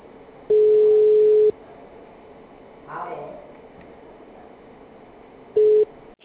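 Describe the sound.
Telephone line tone after a dropped call: a steady, mid-pitched beep lasting about a second, then a shorter identical beep some four seconds later, with a faint brief murmur between them.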